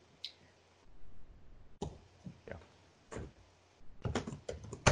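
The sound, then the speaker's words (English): Computer keyboard typing during an online meeting. Sparse, faint clicks appear early on, then thicken into a quick, dense run of keystrokes toward the end. “I'm going to mute my mic while I type that.”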